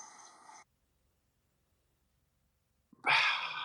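A long breath drawn in through the nose with the mouth closed, part of a slow belly-breathing exercise: a brief breathy rush, a silent pause, then a louder, sustained airy inhale.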